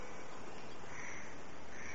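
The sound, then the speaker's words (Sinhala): A crow caws in a few short, faint calls over a steady hiss of background noise. “කාක් කටය ගහනවා ඇහෙනවා. ඒ කාක් කිත්තිනේ”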